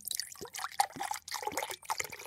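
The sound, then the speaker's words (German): Mate extract is poured from a bottle into an ordinary drinking glass, making a quiet, bubbling trickle with small gurgles and splashes that come in uneven bursts. “So, und jetzt habe ich hier ein normales Glas, in das ich jetzt erstmal diesen Mate-Extrakt gebe.”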